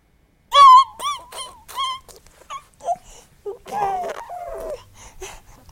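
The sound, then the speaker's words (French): A baby calls out with a string of short, wailing cries and whimpers. Each cry is brief and wavers in pitch, with gaps between them. “Un bébé qui appelle, il appelle avec son corps, il appelle avec son cri.”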